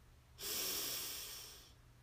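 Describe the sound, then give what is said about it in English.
A single slow breath during a guided breathing exercise, a soft airy rush that swells quickly and then fades gently, heard faintly alone. “Breathe in and out.”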